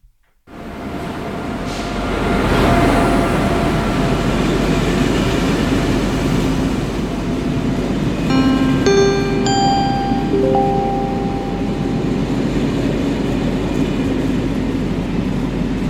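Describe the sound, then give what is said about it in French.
A train running toward a station stop gives a loud, steady rumble throughout, with a few clear chime-like tones ringing out midway. “Le Galaxy Express 99.9 à destination de la planète Rametal va bientôt s'arrêter en gare de Nighty Frog's Planet.”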